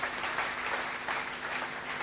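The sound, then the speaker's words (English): An audience claps during a worship service. The applause is dense and continuous, with many hands at once, fairly soft and sustained throughout with slight swells. “Just give the Lord a clap because we worship you, Lord.”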